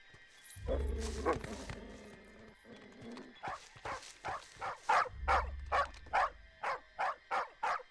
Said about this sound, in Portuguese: Se não controlar o seu cachorro, eu vou.